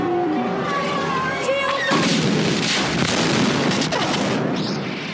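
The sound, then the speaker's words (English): A spaceship shuttle explodes in a hangar as a film sound effect. After a stretch of tonal sound, a sudden loud blast hits about two seconds in, followed by a dense, sustained roar that slowly thins out. “this explosion starts Episode 1. It is the Jedi shuttle exploding in the hangar at the beginning of the film.”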